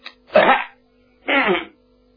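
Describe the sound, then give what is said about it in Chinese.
A man coughs twice as he walks in through a door. The two short, rough bursts are evenly spaced and heard alone, with a faint steady hum underneath. “账房先生刘怀顺从外边进来，一进门先咳嗽两声”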